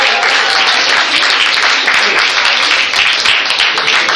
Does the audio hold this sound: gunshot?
no